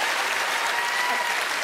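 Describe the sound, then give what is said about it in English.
Applause from an audience welcoming a special guest, a loud, dense and continuous clapping wash that holds steady throughout with a few faint cheers. “I'd like you to put your hands together and give a massive round of applause”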